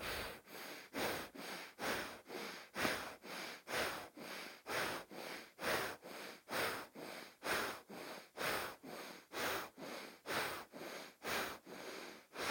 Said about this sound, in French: inspire profondément à gauche, fermez à gauche, ouvrez à droite, expire à droite, encore une quinzaine de respirations.